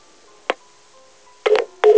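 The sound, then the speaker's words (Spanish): Telephone line tones sound after a dropped call: a brief sharp burst, then a faint steady hum, then two longer loud tone bursts close together at the end. “Creo que se nos cortó la llamada.”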